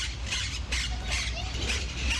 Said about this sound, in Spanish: Cotorra argentina, también llamada perico monje, cata, catita, cotorra ventigris o miopsita monachus.